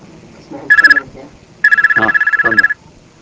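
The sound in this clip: A telephone rings twice with a bright, rapidly trilling electronic tone, the first ring short and the second much longer, while a man talks quietly underneath.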